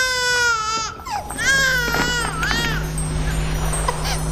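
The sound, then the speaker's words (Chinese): A baby crying in loud, high-pitched wails whose pitch arcs up and down, then fading out while a steady low hum carries on alone. “哎呀，是哪个在哭呢？哦，孩子，哪里来的？”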